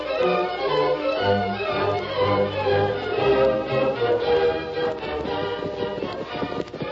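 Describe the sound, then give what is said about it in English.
Horses trotting, with a steady rhythmic clip-clop of hooves throughout, played alongside low sustained music. “Following morning, the Lone Ranger, Jim, and the two outlaws rode to a small general store in town.”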